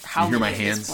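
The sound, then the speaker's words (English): Hands rubbing together in a quick dry scrub, heard under a person talking for about a second. “This is the sound of my hands when we're talking about it”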